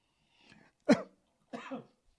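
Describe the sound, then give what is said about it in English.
A sharp cough followed by a second, longer and rougher burst, both fairly quiet and heard alone with no talk. “Excuse me, I coughed there.”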